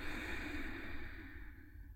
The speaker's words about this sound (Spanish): Suelta tus manos, respira profundo.